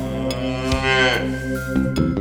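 A cow moos in one long, low, resonant call that lasts about two seconds with no voices over it.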